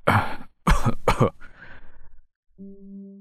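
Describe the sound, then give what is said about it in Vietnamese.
A man coughs three times in quick, harsh bursts, then draws a ragged, strained breath as he struggles to breathe. “vừa lên tiếng đã ho khụ khụ, hít thở khó khăn”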